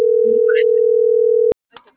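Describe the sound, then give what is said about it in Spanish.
A telephone ringback tone during an outgoing call: one steady, loud, single-pitched tone holding for about a second and a half, then cutting off abruptly, followed by faint brief sounds. “Creo que ya le marqué, me suena dos veces.”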